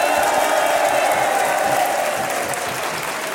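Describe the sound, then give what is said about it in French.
Theatre audience stamping their feet and applauding at the Théâtre du Peuple in Bussan: a continuous, loud wash of dense crowd noise that holds steady throughout and eases slightly toward the end. “Les carnets de campagne en public et ça tape des pieds depuis le Théâtre du Peuple à Bussan.”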